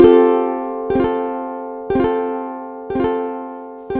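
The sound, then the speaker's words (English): Guitar through a delay pedal set to its maximum delay time: a ringing chord repeats about once a second, with five clear attacks. Each repeat sustains and decays before the next, as in a near-loop. “Let's go to the maximum delay time on this particular pedal. That would sound like this.”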